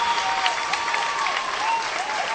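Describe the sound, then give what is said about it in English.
A crowd applauds at a basketball game, with continuous, evenly sustained clapping from the stands that holds at a fairly loud level from start to finish. “they deserve this round of applause”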